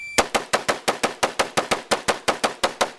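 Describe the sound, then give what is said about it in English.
An AR-15 rifle is fired single-shot as fast as possible by an expert shooter switching between targets: many sharp, loud cracks in a quick, even rhythm, each with a short decaying tail. “That's firing regular speed. This is an AR-15. This is an expert shooter working on targets, switching targets and firing as fast as he possibly can, single shot.”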